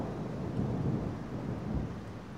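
Thunder from a thunderstorm rumbles steadily with rain, a dense, continuous low roar that swells slightly in the middle and holds loud throughout.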